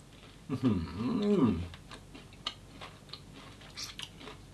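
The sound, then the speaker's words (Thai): Chewing on crispy Thai coconut rice pancakes (khanom khrok) sprinkled with sugar, heard as soft, scattered crunchy clicks and ticks, fairly quiet throughout. “และที่สตางค์บอกว่าในสมัยเด็กที่สตางค์ชอบกินขนมครกของคุณยายก็คือหน้าธรรมดาแบบนี้ครับแล้วก็มากินคู่กับน้ำตาลทรายอย่างนี้เลยนะครับ”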